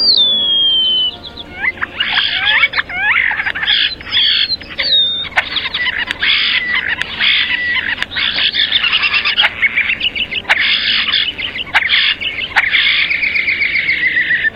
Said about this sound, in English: Sibley's Guide to Birds describes the song of the European starling as mainly quiet, with harsh rattling, and overall a mushy, gurgling, hissing chatter with high, sliding whistles, like this.